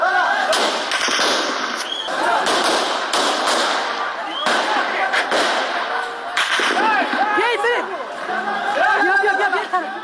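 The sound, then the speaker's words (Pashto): Gunshots fired into the air at a street protest in Kabul: a few sharp cracks break through continuous crowd chatter and shouting voices. “دوی اعتراض په فیسبوک باندې ژوندۍ خبرو چیري چې د ډز غوګون هم اوریدل کیږي.”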